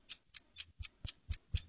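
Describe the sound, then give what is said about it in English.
Steady ticking of a game show countdown clock: seven evenly spaced ticks, each a crisp high click with a soft low thud, heard alone. “All right, start the clock.”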